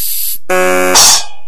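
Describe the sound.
An aerosol air freshener can gives a brief, bright spray hiss lasting a fraction of a second, after a steady electronic buzzing tone that breaks off and restarts.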